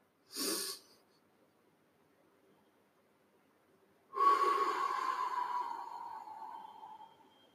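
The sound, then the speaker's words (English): Slow breathing in through the nostrils during a guided breathing exercise: a brief, sharp sniff, then after a pause a long, drawn-out breath of about three seconds that carries a faint tonal hiss and slowly fades, with no talk. “When you breathe in, what you need to do is count till four. Very, very slowly breathe in.”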